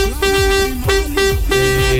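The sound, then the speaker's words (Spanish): A vuvuzela blares in three loud, buzzy blasts, each a sustained droning tone rich in harmonics, with brief pitch dips between them. “Sí, ya entendimos. Ya sabemos que tienes una bubucela.”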